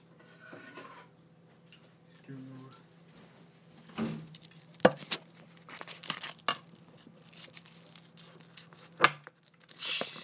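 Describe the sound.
A knife cuts through something tough and hard to slice, giving a few sharp scraping, crunching strokes with a crinkling texture over a low steady hum.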